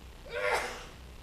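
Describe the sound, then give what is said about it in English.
A single human sneeze: one short, sharp burst of breath that rises quickly and then fades, heard on its own. “A lot of people said, bless you. Everybody, bless you.”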